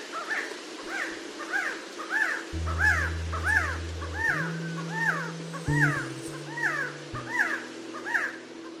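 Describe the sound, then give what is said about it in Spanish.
Quetzal song: many short, rhythmic calls repeat at an even pace over the whole stretch, layered over low, sustained steady tones. “Lo que acabamos de escuchar es el canto del Quetzal, ave que los aztecas consideraban un símbolo de divinidad y lo relacionaban con su dios principal, Quetzalcóatl.”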